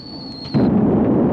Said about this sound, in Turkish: Foton torpillerini hazırla. Ana toplar hazır. Hedefe kilitlen. Hedefe kilitlendi. Hazır. Ateş!